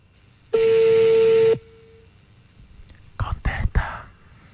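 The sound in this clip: A phone tone sounds after a rejected call: one steady, mid-pitched beep lasting about a second, followed by a pause and then a few brief, quiet bursts of voice.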